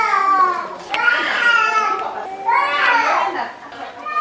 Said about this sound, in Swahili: Kilio ya watoto ambao hawavumilie maumivu ya kutobolewa na shindano inatukaribisha.